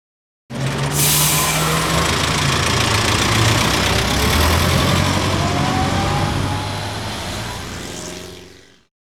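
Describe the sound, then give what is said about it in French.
Double-decker bus engine idling: a loud, rough, steady rumble with a knocking throb that starts abruptly, holds constant, and tails off at the end. “I can hear a double-decker bus. J'entends un bus à deux étages.”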